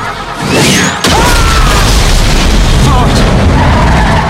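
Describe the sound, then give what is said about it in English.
A thrown grenade explodes in an action chase scene: a heavy boom builds, then a sharp crack cuts in about a second later, followed by sustained loud rumbling, roaring noise that fills the rest. “The grenade lands on Big Fatso's stomach.”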